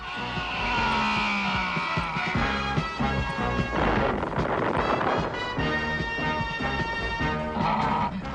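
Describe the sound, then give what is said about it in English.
Crashing and smashing as the Hulk smashes a lab table in a cartoon: loud, busy clatter with repeated impacts and rumbling that keeps going for several seconds. “Hulk, smash the lab table.”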